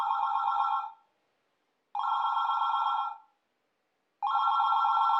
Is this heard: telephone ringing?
yes

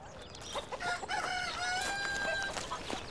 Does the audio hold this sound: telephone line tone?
no

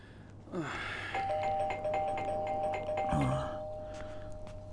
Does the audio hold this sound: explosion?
no

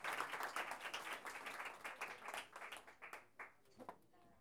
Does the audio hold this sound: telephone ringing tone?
no

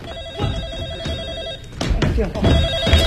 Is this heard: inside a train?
no

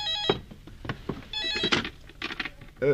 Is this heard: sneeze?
no

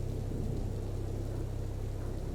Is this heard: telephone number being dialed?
no

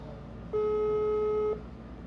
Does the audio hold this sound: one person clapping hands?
no

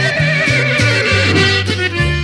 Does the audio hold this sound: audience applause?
no

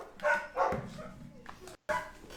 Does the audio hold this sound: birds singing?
no

